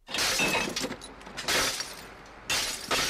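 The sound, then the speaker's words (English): Glass bottles smashed for recycling: several loud, harsh shattering crashes in quick succession, with tinkling breakage between the heavy bursts and no voices. “This is not the sound of destruction, but of industry. The bottles are sold at £11 a ton to a factory in Ringsend.”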